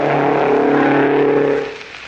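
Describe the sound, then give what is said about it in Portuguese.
A race car engine roars at full speed during a major South American motor race, a loud, steady drone that drops off sharply after about a second and a half. “Passou neste instante o volante italiano a toda velocidade.”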